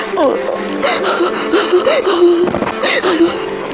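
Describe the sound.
A child cries and wails in high, wavering sobs, the voice rising and falling in continuous tearful cries with breathy catches between them.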